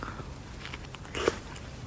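A bite into a fresh persimmon, its stem removed, eaten from the stem end toward the tip. One brief, soft crunch stands out faintly above steady low background noise.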